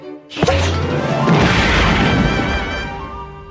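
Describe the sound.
A cartoon explosion from a booby-trapped lipstick tube goes off with a sudden loud boom, then a dense, crackling roar that holds for a few seconds and slowly fades.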